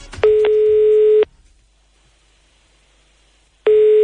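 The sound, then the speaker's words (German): The ringing tone of an outgoing phone call: a steady buzzing tone lasts about a second, then silence for a couple of seconds, then the tone starts again. The tones are loud and there are no voices. “Und jetzt ruft AC die Maya an.”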